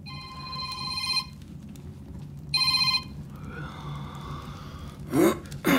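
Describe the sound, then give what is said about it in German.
A telephone ringing with two bright, trilling rings separated by a pause, followed by a short breathy vocal sound near the end. “Und mein Telefon, entschuldige mal eben.”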